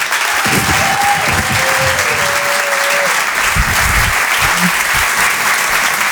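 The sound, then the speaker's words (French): A comedy club audience at the Grand Point Virgule applauds as a comedian is introduced: loud, continuous clapping with a short whistle cutting through and a few voices underneath. “Faites du bruit, s'il vous plaît, pour Roman Doduic.”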